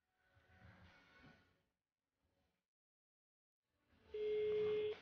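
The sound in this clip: A telephone ringback tone sounds on a call: one steady, pure, low-pitched note lasting under a second near the end. Before it comes a quiet, rushing background.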